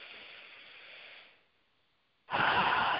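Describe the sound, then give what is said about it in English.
Deep breaths in through the nose during a guided breathing exercise: a soft, airy hiss that fades after about a second, a short quiet gap, then a louder, fuller rush of breath. “Just take a deep breath. I like to do it in through my nose.”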